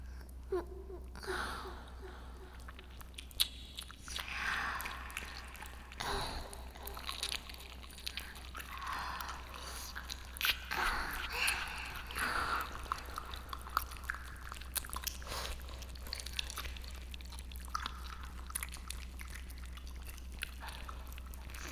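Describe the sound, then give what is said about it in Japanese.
Wet ear-licking and mouth sounds in an ASMR session: soft, moist smacks, clicks and slurps run continuously and quietly, with no talking. “お耳を舐められてゾクゾクしちゃいました。”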